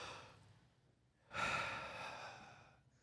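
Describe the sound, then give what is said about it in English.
People at a worship gathering take a deep breath together: one soft, airy breath swells suddenly and then slowly fades, quiet and with no talk. “So I'd like for everybody just to take a deep breath. Go ahead.”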